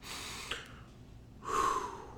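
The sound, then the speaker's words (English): A person takes a deep breath: a soft, short breath followed by a louder, fuller inhale, quiet and with no speech. “So we take a deep breath”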